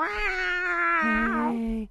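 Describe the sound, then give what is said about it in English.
A voice imitates a cat's meow, holding one long wavering, wailing note for nearly two seconds that sags lower near the end before cutting off. “That's a cat. I know, I hear it.”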